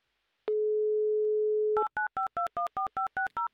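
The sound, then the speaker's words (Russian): A telephone call to Yekaterinburg being dialled: a steady, flat dial tone, then a quick, evenly spaced run of about ten short keypad tones at shifting pitches. “Звоним в Екатеринбург. Звоним прямо сейчас, звоним Альберту.”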